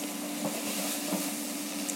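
Sage leaves frying in oil in a pan over low heat give a faint, steady sizzling hiss, with a few soft crackles rising briefly above it.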